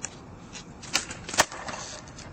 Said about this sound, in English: That right there is an ollie. Most beginners learn that as their first skateboard trick.